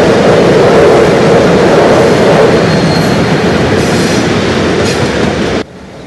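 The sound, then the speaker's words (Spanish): A train passing at a crossing, a loud continuous rumble with clickety-clack wheel rhythm and a faint metallic squeal, sustained throughout before cutting off abruptly near the end. “El tren se aleja”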